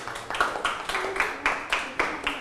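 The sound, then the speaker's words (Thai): Classmates in a classroom clap in rhythmic unison, many sharp even beats at a brisk, steady pace, moderately loud with no talking. “ได้ปรบมือให้เพื่อนเลยนะครับ”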